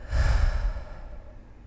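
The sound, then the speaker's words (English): One deep breath let out in a long, breathy exhale, an airy rush that starts loud and tapers off into quiet, like a slow sigh. “Close your eyes and inhale. Hold your inhale and then exhale.”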